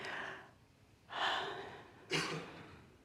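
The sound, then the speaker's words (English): Deep breathing in a quiet worship setting: three soft, airy breath sounds, each a gentle rush of air that slowly fades, with no talk over them. “So just take a deep breath.”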